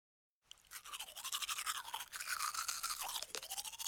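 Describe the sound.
Teeth are brushed with a toothbrush. After a brief silence, continuous scrubbing strokes begin and keep a quick, even back-and-forth rhythm. The sound stays fairly faint and bristly throughout, with no talking.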